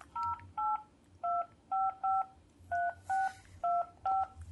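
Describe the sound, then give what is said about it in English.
Telephone keypad tones as a number with an area code is dialed: nine short, clean dual-tone beeps in an uneven rhythm over a faint low hum. “I want to make sure I dial the right area code. So, 1, say 908.”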